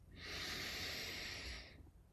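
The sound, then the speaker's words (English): A single deep cleansing breath drawn in through the nose, heard as a long, steady, airy hiss lasting about a second and a half, with no talk over it. “Let's take three cleansing breaths. In through the nose”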